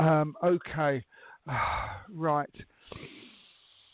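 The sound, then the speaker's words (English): A person takes a deep breath, a long airy exhale that trails off softly after a stretch of speech. “Okay, I'm taking a deep breath because I need to.”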